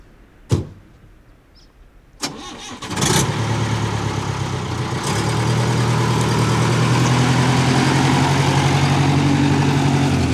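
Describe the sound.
A truck engine idles at a gate on a dirt road. A few sharp knocks come first, then the engine catches and settles into a steady, loud, low rumble that holds to the end.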